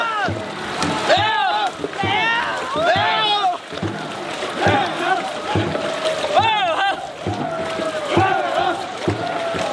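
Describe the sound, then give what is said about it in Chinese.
A team paddles a boat through river rapids as water pours into the hull. Sloshing, rushing water runs under loud rhythmic shouts from the crew, with short vocal bursts rising and falling in pitch. “所有人咬紧牙关，合力挥桨，一心想要尽快闯过这片急流险滩。”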